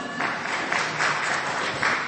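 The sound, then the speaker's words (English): A church audience applauds during a Good Friday service, a steady and moderately loud patter of clapping that continues without a break, with no talk over it. “Give her a round of applause as well.”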